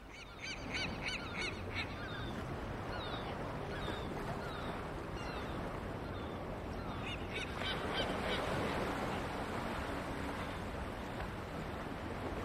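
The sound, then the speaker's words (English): Gull calls over harbour water, a few harmonic squawks early on and again later, carried over a steady, loud wash of water noise with no voices. “A seagull skims above the water.”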